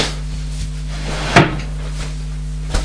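A cupboard door is opened with a sharp wooden knock, and a softer click comes a little later, both over a low steady hum.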